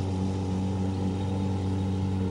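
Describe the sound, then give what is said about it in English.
A boat motor drones as a boat is steered away. It is a loud, constant low hum with layered tones and a steady pitch, with no voices. “she steers the boat away”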